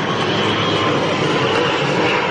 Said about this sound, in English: There's an airplane. Wow, this is a busy area.